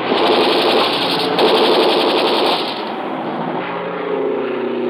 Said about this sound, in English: Enemy plane. Yeah, coming in low. Gonna make a pass at us.